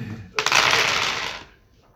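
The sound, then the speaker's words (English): Dice rattle and tumble across a surface during a tabletop role-playing game, one bright clattering burst lasting about a second before it dies away. “my dice aren't very good at rolling, though.”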